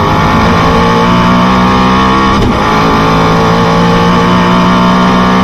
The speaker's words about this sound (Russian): Разгон Агеры до 400.